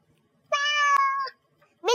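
A cat meows clearly: one long, steady, tonal meow, then after a short pause a second meow begins just as the sound ends.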